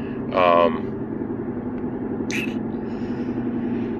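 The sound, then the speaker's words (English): Steady engine and road drone inside a car on a four-hour-plus road trip, a constant low hum with a couple of brief higher sounds over it. “And I see dark clouds in front of me. And like I said, it's about a 4 hour plus drive. So I'm going to sit back and relax.”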